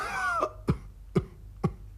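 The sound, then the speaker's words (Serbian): A voice imitates sickly ducks coughing, with a few short, rasping coughs spaced evenly after a brief voiced lead-in. Each cough is a sharp, breathy burst with quiet gaps between them. “čuo je neko kašljucanje i vratio se da vidi šta je kad tamo na jednoj čistini sedi pet ili šest kržljavih pataka i kašlju”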